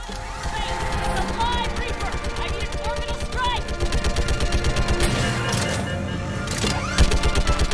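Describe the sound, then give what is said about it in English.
Rapid auto cannon fire in a video game, shot from the back of a hovercraft at a pursuing Reaper: a fast, relentless stream of many shots with a heavier thump near the end, and voices over the barrage. “Alright, so we're on the back of a hovercraft shooting at a Reaper as it chases us.”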